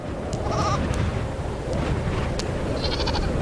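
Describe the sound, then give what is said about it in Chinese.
A goat bleats on high mountain ground, giving a few faint, thin, wavering calls against a steady, loud, low rumbling noise that runs throughout. “山羊正站在高处俯视着所有生物的一举一动”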